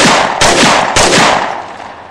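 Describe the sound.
Gunshot sound effect: a few sharp, loud bursts of gunfire in quick succession, each with a broad crack that trails off, the last fading away toward the end.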